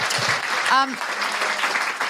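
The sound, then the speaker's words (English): A round of applause from an audience, a dense even wash of clapping that holds steady for about two seconds, with a brief voice-like tone rising briefly through the middle. “Before we go, I should have a big round of applause for Melissa.”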